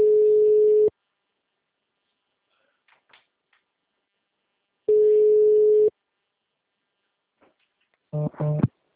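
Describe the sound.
Two long, steady mid-pitched phone tones after a dropped call, each about a second long and separated by a few seconds of near silence, followed by a brief voice at the end.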